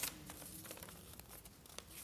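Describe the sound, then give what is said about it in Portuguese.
A sheet of paper torn by hand, quiet crinkling rips in a few short bursts, with no talk. “Eu queria rasgar meu papel, mas acho que eu vou ter que fazer um exemplo prático.”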